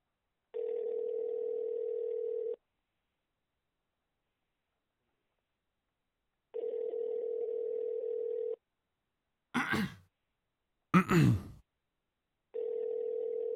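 Ringing on a phone line: three steady, mid-pitched ringback tones of about two seconds each, separated by long silent gaps. Two short, sharp clicks fall between the second and third rings, and no one speaks.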